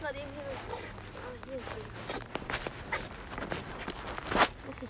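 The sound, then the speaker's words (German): Footsteps walk slowly back in a few soft, crunching steps, faint and irregular, with quiet vocal sounds early on. “Ja, komm, wir gehen jetzt wieder langsam zurück.”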